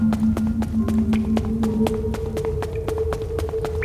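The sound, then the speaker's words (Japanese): Footsteps walking through catacombs in a video game, many quick, evenly spaced steps in a steady rhythm over a sustained low tonal hum. “まあ、正式な脱出方法はこれ歩いて脱出するしかないんですね。”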